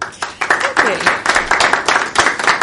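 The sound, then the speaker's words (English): A live studio audience applauds as a guest named Diana is welcomed: many hands clap in a dense, lively, pulsing patter, with a voice briefly heard over the clapping. “Live audience has given you a warm welcome, Diana.”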